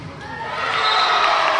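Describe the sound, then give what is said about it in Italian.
Terracina supporters cheering at a basketball game against Oplonti, a broad crowd roar of shouts and cheers that swells in loudness over a couple of seconds. “anche la sostenuta parte di tifosi del Terracina si fa sentire.”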